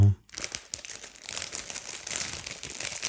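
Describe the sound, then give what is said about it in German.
A bag of shelled walnuts crinkles as it is passed across, giving a continuous crackly rustle. A brief, loud thump sounds at the very start. “Gib mal die Tüte rüber.”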